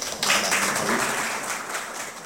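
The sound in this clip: Audience applause at a literary felicitation ceremony, a steady wash of many hands clapping that starts suddenly and carries on evenly, fading slightly toward the end.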